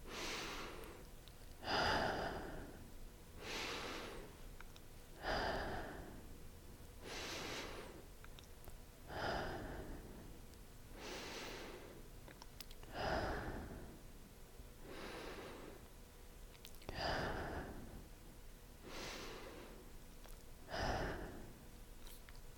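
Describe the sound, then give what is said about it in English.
Six slow, deep breaths, each drawn in through the nose and let out through the mouth, make twelve soft, airy swells in an even rhythm, heard alone and fairly quiet. “Whatever you are doing right now, take 6 deep breaths with me, in through your nose and out through your mouth.”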